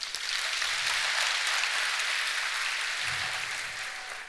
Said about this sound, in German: Wer glaubt nicht an die Mondlandung? Kurz klatschen.